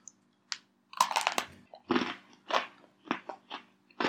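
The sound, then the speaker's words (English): Biting into a hard cream-filled vanilla cookie gives a series of crisp, dry crunches and cracks in irregular bursts, some clustered close together, with quiet gaps between and no talking. “when I bite into mine, the cookie is so hard that it squeezes the cream right out.”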